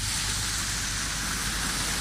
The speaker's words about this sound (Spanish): mucho frío a esta hora, algo de viento y también de lluvia.